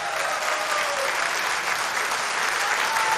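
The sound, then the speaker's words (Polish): Sustained applause from a concert audience in a radio studio: a dense, steady wash of clapping that holds at an even loudness throughout, with no voices on top. “Henia Sytnera, on tam gdzieś jest, brawa dla niego, śmiało”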